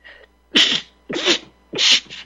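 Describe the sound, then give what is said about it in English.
A human sneeze after leaving a cold room: a faint breathy onset, then three loud, sharp sneezing bursts in quick succession, heard alone. “I just walked out of a cold room. I sneezed. Here it is.”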